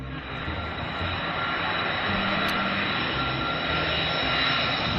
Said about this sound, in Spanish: Así suena este avión, que tiene un fuselaje del comercial Boeing 707 y que tiene unas dimensiones que realmente impresionan cuando lo ves a pie de pista.